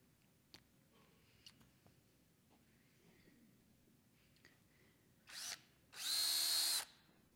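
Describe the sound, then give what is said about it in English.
A battery-powered drill runs in two bursts, a short one and then a longer steady high whine, after a stretch of near silence with faint scattered ticks. “Got a power tool here.”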